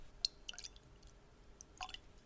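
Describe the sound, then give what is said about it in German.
A big sip of Edradour Ballechin 8-year double malt whisky: a few soft, wet slurping and swallowing sounds in short clusters, faint and without talk. “meinen Edredower Balachin. 8 Jahre Double Malt. Cuvée auch genannt. Große Flasche wieder. Große Flasche, großer Schluck.”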